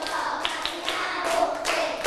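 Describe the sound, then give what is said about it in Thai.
A child claps their hands in separate, evenly spaced claps over a low background hiss, each one a sharp little smack. “ไหนลองดูซิปรบมือ10ครั้ง”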